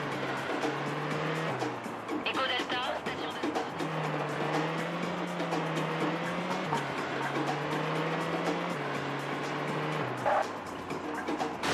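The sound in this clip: A car engine in a racing video game drones continuously, its pitch climbing under acceleration and dropping back as the car brakes, rising and falling several times.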